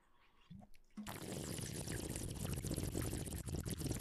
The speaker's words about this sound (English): I'm doing the watery bong sound.